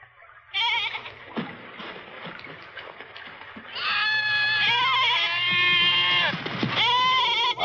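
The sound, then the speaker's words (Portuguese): Goats bleating aboard a ship in a 1963 adventure film: loud, quavering, overlapping bleats fill the second half, following a quieter opening stretch. “Os bodes são bons marujos? Bodes? Do que está falando? Por que trazer bodes para bordo?”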